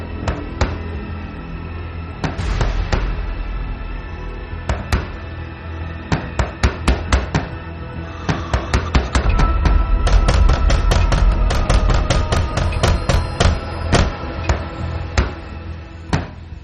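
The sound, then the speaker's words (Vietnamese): Repeated knocking on a door produces many sharp, loud raps in uneven bursts that grow denser and more insistent toward the middle and end, with no voices. “Tiếng gõ cửa cứ liên tục.”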